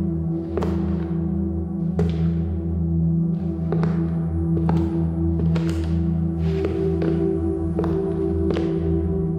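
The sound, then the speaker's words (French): Slow, heavy footsteps in a hallway at night, about seven spaced, dull thuds falling at an uneven, unhurried pace over a steady low hum. “Les pas sont lents et lourds.”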